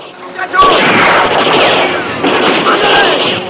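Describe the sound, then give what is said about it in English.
A gunshot fired from a wall cracks out as a sharp, loud burst, followed by a reverberant rumbling tail, with a voice speaking over it. “One of Ira's men is shot from the wall.”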